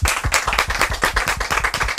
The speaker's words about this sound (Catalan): Anem a comprovar-ho. Un aplaudiment.